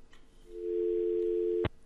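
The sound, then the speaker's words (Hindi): After a call disconnects, a steady telephone tone sounds as one continuous mid-pitched hum lasting just over a second. It ends abruptly with a sharp click. “Okay so ये call disconnect हो गया है.”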